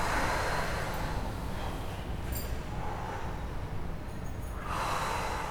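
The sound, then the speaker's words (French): Loud breaths are pushed out through the mouth during a relaxation breathing exercise. There are a few long, airy whooshes of breath with quieter gaps between them, and no talking. “Chaque expiration est haute pour récupérer. Expirez bruyamment. Oui, par la bouche, lâchez les amarres.”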